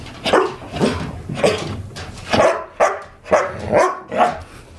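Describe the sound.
A snow-white rescue dog barks in a quick series of loud, sharp woofs, one after another, with no talking over them.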